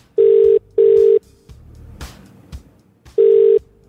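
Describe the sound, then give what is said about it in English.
Ringback tone of an outgoing phone call: a pair of short, steady, mid-pitched beeps, a pause with faint rustling and soft knocks, then a third beep as the next cycle begins. “We are dialing.”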